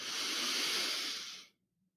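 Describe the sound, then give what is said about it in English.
A deep inhale, a steady airy rush of breath lasting about a second and a half before cutting off into silence, with no talk. “exhale, hold on, release any air you're holding on to, and then inhale with me.”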